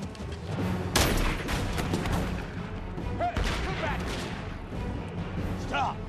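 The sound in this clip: Shotguns fire from really far away, a few sharp, loud cracking blasts cutting through a busy, noisy background with voices.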